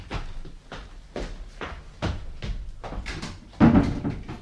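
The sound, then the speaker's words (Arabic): A door is shut: a series of dull wooden thuds and knocks, fairly faint, with the loudest, heaviest impact near the end. “اقفل الباب وراك.”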